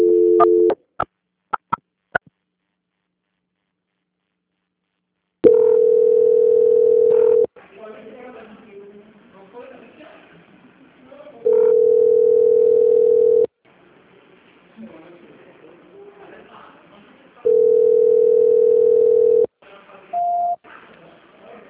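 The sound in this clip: Telephone line tones while a call is transferred: a few sharp clicks open, then three steady mid-pitched tones of about two seconds each, separated by low murmuring gaps, and a short higher beep near the end.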